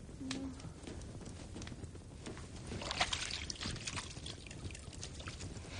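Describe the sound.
Water trickling and dripping as a bandage is wrung out over a bucket of water, a faint, steady run of small splashes with a slightly fuller stretch midway.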